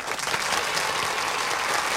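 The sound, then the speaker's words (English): Applause from an audience at an award ceremony, welcoming the custodian of the year; a dense, continuous wash of many hands clapping, evenly loud throughout. “let's give a big hand and a warm water squeegee welcome for the outstanding custodian of the year, Bernard Walton.”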